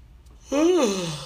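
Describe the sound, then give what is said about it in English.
A person yawns once, a drawn-out voiced breath whose pitch rises slightly and then sinks as it trails off, alone with no talking. “sorry for yawning, dude.”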